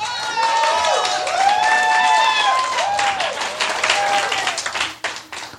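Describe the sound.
Audience applause at a live comedy show as performers are introduced: lively clapping with whooping, cheering voices rising and falling over it, thinning out toward the end.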